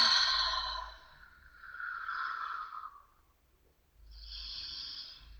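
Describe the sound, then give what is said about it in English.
A big breath, heard as a few long, airy, hissing swells with a quiet gap before the last one, faint and alone. “Big breath.”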